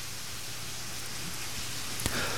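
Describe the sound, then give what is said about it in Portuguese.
Heavy rain falling on a town in Rio Grande do Sul, Brazil, as a storm arrives: a steady, fairly faint wash of dense hiss with a single small tap near the end. “bem na hora que começou a chover forte aqui em Áurea agora. Começou a descer água valendo aí na cidade.”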